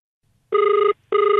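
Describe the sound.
Telephone ringing on an outgoing radio phone-in call: two bright, buzzing ring bursts separated by a short pause, the second cut off at the end, with no talk over them.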